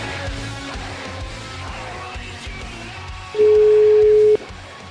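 A single steady telephone call tone sounds for about a second while an Italian phone call is being dialed, clear above a continuous background of noise.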